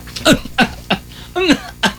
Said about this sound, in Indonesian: pamannya ketawa batuk-batuk.